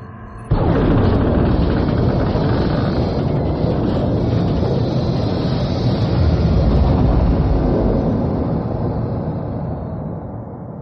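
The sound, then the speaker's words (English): An explosion blast bursts in suddenly after a brief quiet moment and becomes a dense, roaring rumble that holds steady for several seconds before slowly fading toward the end. “Get away from the blast. Go on.”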